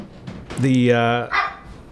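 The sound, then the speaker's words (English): Coco the dog gives a drawn-out, high whining bark followed by a shorter yelp, with people talking around it. “That's my dog Coco. That's okay, Coco. Just calm down. Calm down, baby.”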